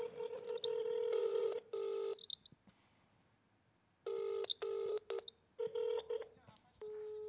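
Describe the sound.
Touch-tone beeps as a telephone number is dialed while trying to reach someone; many short keypad tones come in two quick runs separated by a pause of about two seconds.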